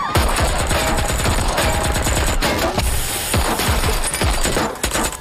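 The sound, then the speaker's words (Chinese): Heavy gunfire from a drug gang's assassination attack, a hail of bullets as dense rapid bursts of shots crowd together, loud and nearly continuous throughout with no voices. “在枪林弹雨中，于顺天虽然逃过一劫，但他的妻子没能躲过毒贩的子弹，倒在了血泊之中。”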